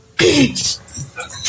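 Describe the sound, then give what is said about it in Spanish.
Dogs at a home animal foundation fighting and whimpering, with a loud yelping whine that falls in pitch followed by a few shorter scuffling bursts. “¡Ay, un momento! Se agarraron los perritos. Es que tengo una fundación.”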